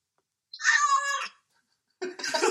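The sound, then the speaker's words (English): A cat meows twice: first a clear, tonal mid-to-high meow lasting under a second, then after a short pause a rougher, noisier second meow that is cut off. “that was a cat, mate”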